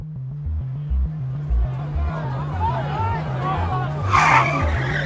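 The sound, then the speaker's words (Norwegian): A car drives fast into a group of demonstrating youths in East Jerusalem, with engine and tire noise mixed with crowd chatter and shouting, and a louder burst of commotion near the end. “En israelsk bosetter kjører i stor fart inn i en gruppe palestinske ungdommer som demonstrerer.”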